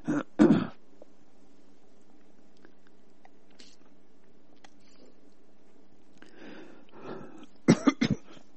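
Coughing and throat clearing from someone with something caught in the throat. A harsh burst comes first, then a long quiet stretch with faint background, then a few more rapid, sharp coughs at the end.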